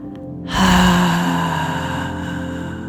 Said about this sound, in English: Finding the inhale and audibly exhaling.